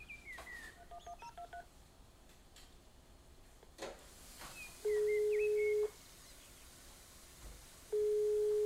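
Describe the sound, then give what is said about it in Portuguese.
A telephone call being placed: a quick series of short dialing tones, then two long, steady, mid-pitched ringback tones with a pause between them, each lasting about a second, against faint background hiss. “Eu vou ligar pro meu pai antes de tomar café.”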